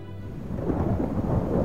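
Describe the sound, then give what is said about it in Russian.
Thunderstorm with a low, rolling rumble of thunder over a steady hiss of rain, loud and continuous through the short stretch with no voices. “Солнечное небо заволакивают быстро движущиеся грозовые тучи. Темнеет.”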